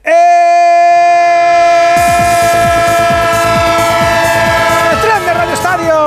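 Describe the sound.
A train sound effect opens with a loud, sustained multi-tone horn. After about two seconds, a steady rhythmic clatter of wheels on rails starts beneath the horn and continues to the end.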